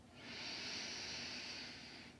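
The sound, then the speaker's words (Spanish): A deep, slow inhale during a relaxation breathing exercise, heard as a faint, steady airy hiss lasting about two seconds, alone with no talk. “Vamos a inhalar profundo”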